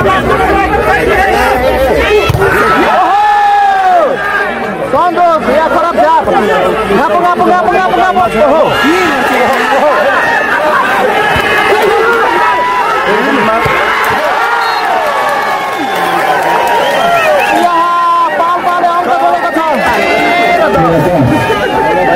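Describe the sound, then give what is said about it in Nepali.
A crowd hooting and shouting at a sports game at Tundikhel in Tansen, Palpa. Many overlapping voices form a dense, continuous roar that stays loud from start to finish. “Hooting आउँदैछ अहिले”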